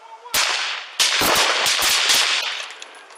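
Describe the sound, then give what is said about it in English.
Gunshots fired by a suspect during an armed police confrontation: many loud, sharp cracks in a rapid, uneven burst, one after another with little pause. “2-7-4, shots fired, shots fired. Yep. He's firing, he's shooting.”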